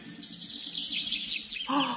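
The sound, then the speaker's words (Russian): A starling sings in imitation of a thrush's song, giving a quick run of repeated high, bright chirping notes that ends in a lower warbling phrase. “Дрозд порхнул туда, откуда раздавалась песня. Каково же было его удивление, когда вместо своего братца он увидел самого настоящего скворца.”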